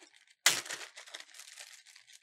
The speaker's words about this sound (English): We're gonna cut a medium lime in half.